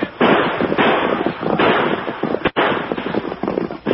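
Gunshots in a Western radio drama: several loud, sharp cracks in quick succession over a continuous noisy rumble.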